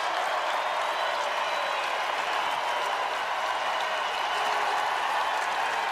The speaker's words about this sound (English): Standing ovation.